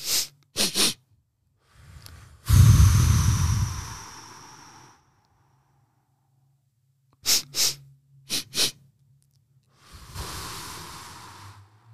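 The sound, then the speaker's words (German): Pairs of short, sharp sniffs drawn in through the nose, done as a breathing exercise, each followed by a longer hissing breath out. The pattern repeats several times with no talk. “Zweimal kurz durch die Nase einatmen.”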